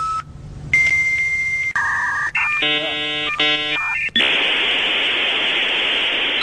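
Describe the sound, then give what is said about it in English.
A dial-up modem connects: a few dial tones give way to squealing, warbling handshake tones in stacked pitches, then a loud, steady hissing static fills the rest, with no voices. “Remember it? Dial up.”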